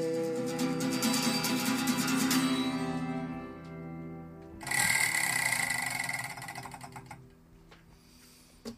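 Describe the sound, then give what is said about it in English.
Fast, even mechanical ticking of a spinning prize wheel over sustained musical tones, followed partway through by a louder musical burst that trails off. “I'm going to spin the Wheel of Eight.”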